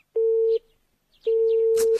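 A telephone line gives the steady beeping tone of a call that cannot connect: two identical mid-pitched beeps, the second longer, separated by a brief silence.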